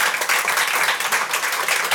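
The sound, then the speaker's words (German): Applause from an audience at a stage event welcoming a panel of expert women, a dense, steady patter of many hands that continues at an even level throughout. “Und jetzt bitte ich um einen Applaus, weil es ist wirklich toll, was heute hier auf der Bühne an Expertinnen ist.”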